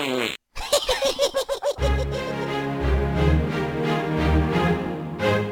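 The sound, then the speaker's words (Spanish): Comic fart noises in a rap track: a quick run of buzzy, sputtering blasts that gives way to a thumping music beat. “Todo el mundo se tira pedos.”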